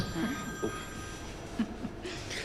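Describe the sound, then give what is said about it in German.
An office telephone rings faintly and steadily beneath low background noise, with a few soft knocks in between. “Ich muss da rangehen, ist mein Büro.”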